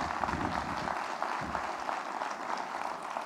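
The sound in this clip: An audience applauds to welcome a guest speaker from Nairobi, Kenya, with steady, fairly faint clapping that runs through the whole moment.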